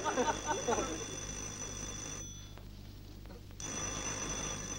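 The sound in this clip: A telephone rings in a short, faint burst of rapid pulses at the start, then gives way to a quiet, steady electrical hum.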